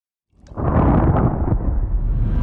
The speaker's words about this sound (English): Finally, everything explodes.